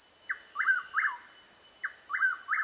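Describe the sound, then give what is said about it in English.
A willow flycatcher sheltering in a large shrub gives short, sharp, downward-slurred call notes. There are two groups of three, separated by a pause, over a steady high insect buzz. “A willow flycatcher, ensconced in a large shrub, makes short, darting flights to snap up insects without leaving the shelter of the”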